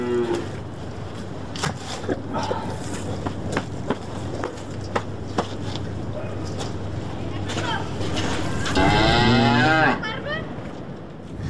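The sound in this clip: Cattle lowing as livestock head out to pasture: one loud, drawn-out moo near the end stands out above steady background noise scattered with faint knocks and clicks.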